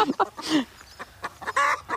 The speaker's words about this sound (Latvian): Nu, ko tā pēkšņi sākat gāgināt, tad... Izdēta ir ola.